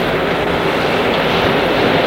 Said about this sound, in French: Ils sont descendus sur la plage. La nuit est noire. On entend le bruit de la mer.